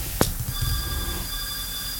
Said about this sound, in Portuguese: Deixa eu atender o telefone.